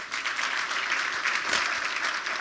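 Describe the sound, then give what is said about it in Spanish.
An audience applauding during a bilingual church service: a thick, continuous burst of clapping from many hands, loud and even across the short stretch. “Dar un aplauso a Cristo.”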